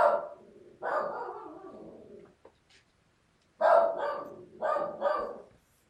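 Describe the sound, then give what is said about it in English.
A dog barking in another room: several loud barks in two clusters separated by a short quiet gap, with no talk. “Know you can probably hear my dog barking in the other room.”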